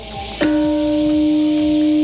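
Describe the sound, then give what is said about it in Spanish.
A peace bell rings in memory of the Hiroshima atomic bombing victims. It is struck once, then a low, sustained tone with a higher overtone hums on steadily without fading much. “Hoy esta campana de la paz sonaba en recuerdo de las víctimas 80 años después.”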